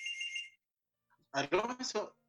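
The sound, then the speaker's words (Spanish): An incoming call rings as a single short burst of bright electronic tone, followed by silence and then a voice speaking. “te están llamando, ¿no? ¿no? Sí, están llamando. Pero lo tiré a, lista de espera.”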